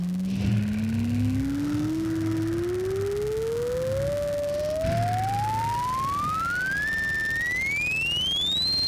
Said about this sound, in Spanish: Conectado el móvil de comando, se prenden los motores de la primera etapa.